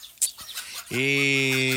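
A hen clucks: a few soft scratchy sounds, then a loud, drawn-out harmonic squawk that holds steady to the end.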